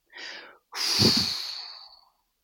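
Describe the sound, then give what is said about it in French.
Breath blown out through a half-open mouth: a short, soft airy puff, then a longer, stronger breathy rush that swells and slowly fades, with no voices. “je vais vous encourager à garder la bouche entrouverte et à souffler, se laisser traverser par le souffle.”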